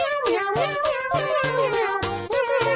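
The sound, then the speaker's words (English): A cat meows in a quick run of several wavering, harmonic calls over a steady low tonal backing. The sound is fairly loud and continuous throughout. “Is that a cat? It's my cat.”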